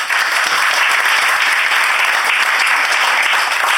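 A studio audience gives a round of applause to a panelist on a panel show: loud, dense, even clapping that holds steady throughout with no voices over it.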